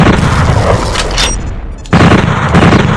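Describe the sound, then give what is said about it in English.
Loud automatic bolt gun fire in a video game, a dense run of rapid booming shots. It dips briefly near the middle, then resumes at full intensity. “Automatic bolt gun.”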